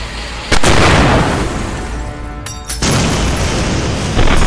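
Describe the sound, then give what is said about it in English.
Explosions of bombs and incendiary devices dropped from a Zeppelin airship: a few heavy, sudden booms burst out over a constant deep rumble, each leaving a loud sustained roar. “Buildings were destroyed and 10 people were killed as Lehmann's crew dumped a crude rack of explosives and incendiary devices off the Zeppelin.”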